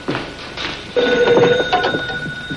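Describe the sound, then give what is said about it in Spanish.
A telephone ringing in a cafeteria, with steady high bell tones that begin partway in and continue over a busy background clatter. “Chris llama a la cafetería donde está Lonegan para darle el supuesto soplo. Lonegan se levanta para contestar la llamada.”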